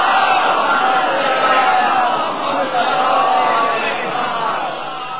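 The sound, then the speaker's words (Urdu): A large crowd loudly chanting salawat in unison, a sustained roar of many voices that carries on steadily for the whole stretch. “اب لگائیں نعرہ صلوات بھیجے اتنی بلند آواز.”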